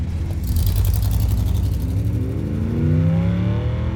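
A car drives off and accelerates on a trip to the Plaza on the south side of Central Park. The engine's steady, loud drone climbs in pitch during the second half as it gathers speed.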